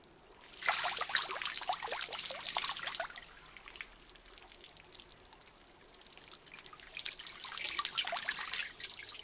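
Water poured over someone's back during washing, with two long, splashing pours separated by a softer, quieter trickle.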